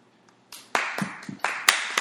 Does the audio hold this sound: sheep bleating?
no